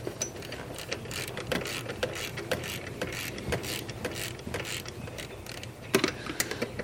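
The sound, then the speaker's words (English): A ratchet wrench clicks away while removing the bolt of an old idler pulley, producing many rapid, fairly even metallic ratcheting clicks over a low mechanical rumble, with no talking. “Ratcheting off the old idler pulley.”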